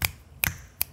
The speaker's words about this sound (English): But yeah, it's the sound of your middle finger slapping onto your the bottom, the other parts of your fingers.